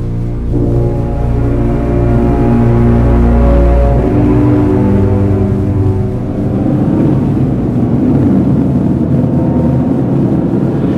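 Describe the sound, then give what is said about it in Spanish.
A car drives along a motorway on a summer morning, the road still holding puddles from a night storm, giving a loud, steady, low engine drone with a humming tone that continues throughout. “En una espléndida mañana de verano, un coche se desplaza por la autopista.”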